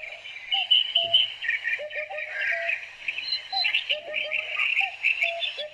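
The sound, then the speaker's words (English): Calls of a Eurasian hoopoe: short, low hooting notes that recur irregularly beneath a dense wash of high chirping and buzzing from other birds or insects. “That's the call of the Eurasian hoopoe.”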